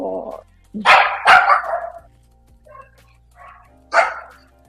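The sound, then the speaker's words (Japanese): A dog barks in sharp, loud bursts as dogs pass by during the morning walking hour. Two strong barks come close together early, fainter sounds follow, then one more bark near the end, with a brief human voice at the start. “もうワンコ通過中で大変なことになっちゃう”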